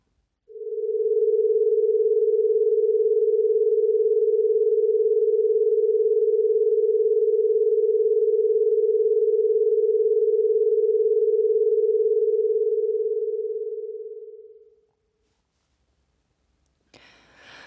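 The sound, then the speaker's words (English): Two electronic tones, set slightly apart in pitch, blend into one smooth, steady hum. The hum sounds for about fourteen seconds at an even level, then fades out, and a faint rustle follows. “They may have sounded to you like they were one sound, but actually they were created by two sounds playing together at just slightly different frequencies.”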